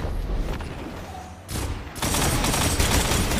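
Sniper rifle gunfire in a multiplayer first-person shooter match with zone capture objectives; steady background game noise, then a sharp burst of shots, followed by loud, sustained firing to the end.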